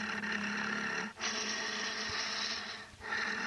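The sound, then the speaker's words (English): Heavy, rasping breathing or snoring from a spooky sound-effects tape: long, noisy breath strokes at an even, fairly faint level, broken by a couple of brief pauses between breaths. “Or breathing, heavy breathing. Snoring, maybe?”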